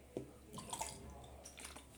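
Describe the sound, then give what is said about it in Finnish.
A sip of water taken at a microphone, heard as soft, faint wet mouth and swallowing noises with a few small, brief clicks and no speech. “Oli ihan pakko ottaa vesi hörppy”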